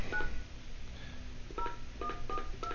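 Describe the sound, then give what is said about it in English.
Touch-tone dialing of a phone number entered by hand: several short, bright keypad beeps in quick succession over a steady background hiss. “All right, well, dial it in manually, and”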